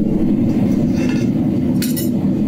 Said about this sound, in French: Là, c'est le feu qu'on entend.